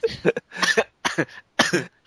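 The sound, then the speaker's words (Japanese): A short fit of coughing: several harsh, voiced coughs come in four or five quick bursts with short gaps between them, loud and alone. “咳込みますよ、ほんと。”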